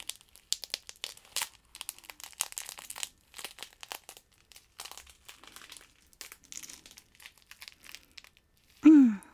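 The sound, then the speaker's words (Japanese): Eggshells crushed by hand after an egg is cracked and separated: many faint, dry crackles and crunches come in irregular bursts with short pauses between them. “今から卵の殻をちょっと潰す音入れますよ。”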